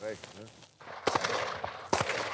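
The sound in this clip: Two sharp gunshots crack at a shooting range, spaced about a second apart, after a voice speaks briefly at the start.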